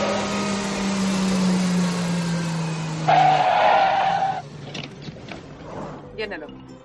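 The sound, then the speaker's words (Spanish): A car reverses at high speed up to a gas pump: a steady engine whine gives way to a loud, brief tire squeal, followed by quieter scattered noises. “A gran velocidad, Luis conduce marcha atrás hasta el surtidor de gasolina.”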